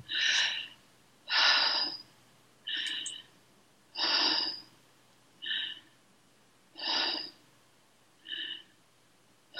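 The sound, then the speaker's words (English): Short, forceful breaths in a breathing exercise, a steady series of sharp, evenly spaced puffs of air with brief pauses between them and no talk. “Four short breaths followed by one long breath, and I'll do them with you in a moment. So you do the four short breaths like this.”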